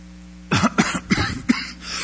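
A person coughs and clears their throat, with a few short, rough bursts in quick succession standing alone against a faint steady hum.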